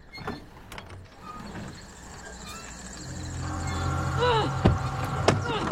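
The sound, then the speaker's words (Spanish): In a horror film scene, the handle on a car's back door starts moving and rattling. A few sharp mechanical clicks sit over a low rumble that swells louder toward the end. “Una manilla en la puerta de atrás empieza a moverse.”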